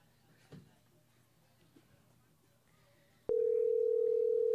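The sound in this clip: A telephone tone on an outgoing call cuts in abruptly after a quiet stretch of faint background noise. The steady, loud, single-pitched tone holds unbroken to the end.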